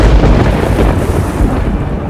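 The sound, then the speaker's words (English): Thunder rolls from gathering storm clouds as a loud, deep and continuous rumble. It keeps up a heavy roar without a break for about two seconds. “Storm clouds began to form overhead, and the band of faithful searchers became suddenly suspicious of the circumstances.”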